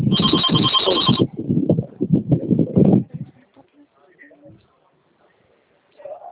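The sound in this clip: A telephone rings with a bright electronic trill for about a second. People then talk briefly before the sound fades to near silence.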